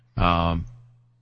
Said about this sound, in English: It sounded like a cat. creek. Was it a cat creek? I thought it was a cat. That was a chair rocking back and forth.